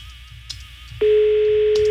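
Telephone ringing tone on a repeat call. After a quiet stretch of faint line noise, a loud, steady single-pitched tone starts abruptly and holds unbroken to the end.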